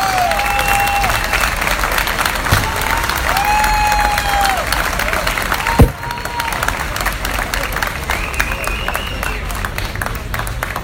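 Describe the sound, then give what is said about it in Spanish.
Dense audience applause at a campaign rally, sustained for about eleven seconds, with cheers and whistles rising through it and one sharp thump near the middle. “Fuerte, fuerte el aplauso para despedir a Anael Cardoso.”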